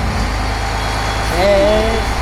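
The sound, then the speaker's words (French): The engine of a large canal barge runs with a steady low, droning rumble that holds throughout, and a faint voice briefly rises over it toward the end. “Alors là, nous allons conduire la grande péniche.”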